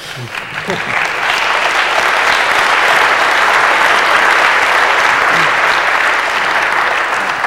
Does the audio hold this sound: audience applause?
yes